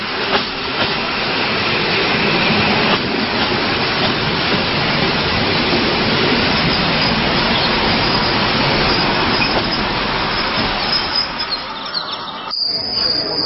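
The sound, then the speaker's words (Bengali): A train arriving at a station, producing a loud, continuous rushing rumble of wheels and carriages that holds steady throughout and cuts off abruptly at the end. “চলে আয়, train চলে আসছে।”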